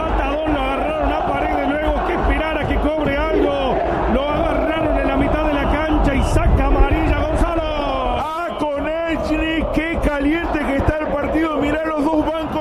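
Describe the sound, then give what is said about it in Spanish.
Boca Juniors fans chant in unison in the stadium in Rosario, the Gigante de Arroyito, a loud, steady, sung roar of massed voices that dips briefly and then picks up again. “Se levanta el público en Rosario, no es la Bombonera, es el gigante de Arroyito. Esto es la hinchada de Boca que canta en los micrófonos de Cadena 3 Argentina.”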